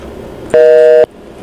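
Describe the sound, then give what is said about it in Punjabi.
A phone call's disconnect tone as the line drops: one loud, steady electronic tone lasting about half a second, starting and stopping abruptly over faint background noise. “ਲੈਨ ਮੈਨੂੰ ਲੱਗਦਾ ਜਿਹੜੀ ਹੈ ਜੀ drop ਹੋਈ ਹੋ ਆ, ਮਾਫ਼ ਕਰਨਾ।”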